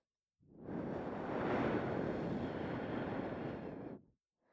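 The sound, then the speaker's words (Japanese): A long breath blown into an ear, a soft breathy whoosh heard alone. It starts abruptly, swells a little in the middle and cuts off after about three and a half seconds. “ちょっと息吹きかけてみっか。”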